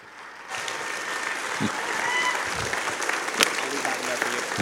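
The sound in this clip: A church audience breaks into applause on Father's Day to welcome the senior pastor to the stage; after a quiet start, full and steady clapping holds to the end.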